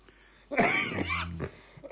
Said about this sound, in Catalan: Ui, aquesta tos m'està matant.